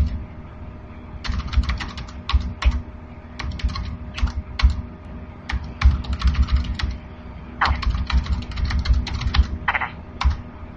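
Keys clatter on a computer keyboard as text is typed into an edit field, many quick clicking keystrokes in irregular bursts separated by short pauses, steady and fairly loud throughout.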